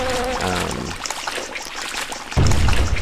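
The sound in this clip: Running water in a video game, a steady hissing rush that thins out for a stretch, then swells back fuller and louder near the end.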